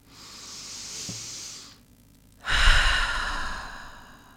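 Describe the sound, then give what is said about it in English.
A deep breath taken slowly: a long, soft inhale rushes in, then after a short pause a fuller, louder exhale follows and gradually fades, with no talking over it. “by just taking a deep breath”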